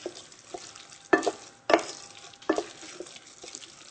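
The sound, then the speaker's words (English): A spoon stirs raisins into a thickened cooking mixture in a pan, giving a few distinct scraping strokes at uneven intervals over a faint, soft sizzle, with no talking. “Now we're going to stir to incorporate all of this.”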